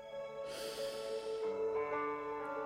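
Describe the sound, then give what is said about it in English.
During a guided relaxation exercise, a person inhales deeply in one long, airy breath lasting about a second over a soft, sustained musical drone. “let's just take a breath. Inhale.”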